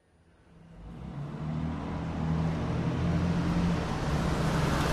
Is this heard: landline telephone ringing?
no